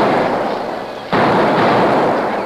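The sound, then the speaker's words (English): Blasting powder explosions set in small holes along a stage trail: a broad, rumbling roar that jumps abruptly louder partway through and then holds steady. “They set blasting powder into several small holes in the stage trail, lit the fuses, and then ran back into the brush. A moment later, there were several small explosions.”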